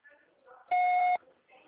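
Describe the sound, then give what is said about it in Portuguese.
Voicemail beep: one loud, steady electronic tone lasting about half a second, with talking just before and after it. “Deixe sua mensagem na caixa postal.”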